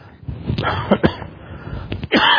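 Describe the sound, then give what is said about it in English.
Coughing fit from water going down the wrong pipe: a few sharp, harsh coughs in quick bursts, the last one loudest, with the surrounding quiet broken only by the coughs. “the water went down the wrong pipe”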